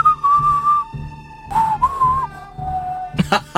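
A person whistles a western film theme melody in long sustained notes with sliding bends between pitches, loud and clear, followed by a few short clattering noises near the end.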